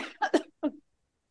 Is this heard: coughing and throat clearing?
yes